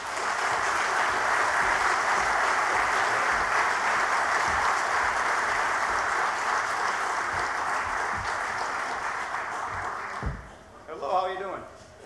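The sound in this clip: Audience applause welcoming a speaker to an Air Force One talk, a dense, even wash of clapping that holds steady for about ten seconds before dying away, followed by a brief spoken voice.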